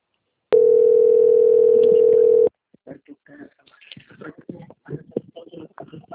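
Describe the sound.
A telephone line tone plays during a call transfer: one steady, unbroken mid-pitched tone holds for about two seconds, then cuts off and gives way to faint, choppy sounds.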